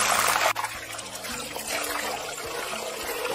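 Slightly wet potatoes fry in oil for a potato and onion tortilla and spatter in the pan. The sizzling is a steady, bright hiss with scattered crackles over a low hum.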